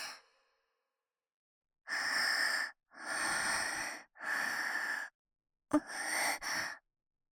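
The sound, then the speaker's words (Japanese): Four slow, deep breaths from a nervous person sitting close beside an older brother, each a loud, airy rush in steady succession, the last broken by sharp clicks. “何って、深呼吸だけど”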